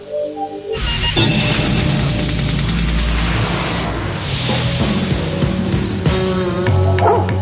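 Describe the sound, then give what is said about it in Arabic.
A dog barks, yips and whimpers in a loud, fairly unbroken stretch of sound lasting several seconds, with no talking. “صدقوا أن الكلب كودي يستطيع نطق 12 كلمة. هيا قل مرحبا. قل شكرا.”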